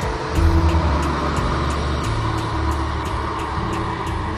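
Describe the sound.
A car engine drones as the car drives away, a low, rumbling hum with shifting tones that stays fairly even in loudness, with no voices.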